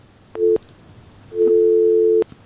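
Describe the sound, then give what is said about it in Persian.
A telephone busy tone follows a dropped call to a radio call-in show: two steady electronic tone bursts, a short beep and then a longer one lasting nearly a second, with quiet between them. “تماس از این هم قطع شد.”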